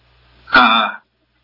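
A single harsh throat clearing from a person with a dry throat: one short, rasping burst of about half a second, heard alone with silence after it.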